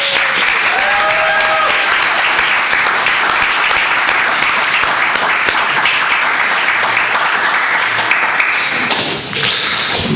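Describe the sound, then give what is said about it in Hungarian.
Applause for workers at a Christmas church service: loud, dense clapping from many hands runs steady and unbroken throughout, dipping briefly near the end. “Szerintem megérdemelnek egy nagy tapsot.”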